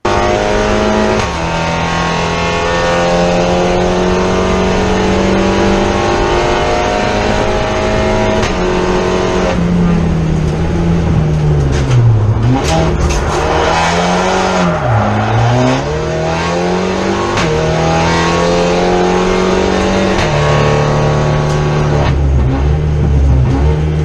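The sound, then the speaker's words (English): Race cars in the MSVT Super Cup lap the Brands Hatch circuit with a loud, continuous engine howl that climbs through the gears, then drops sharply and recovers twice under braking, with no talk. “the final nomination, we have Nick Jackson at Brands Hatch in the MSVT Super Cup. We can just play the clip.”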